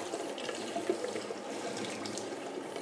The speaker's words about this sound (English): I'm just rinsing out my cup. That first cup of coffee was good.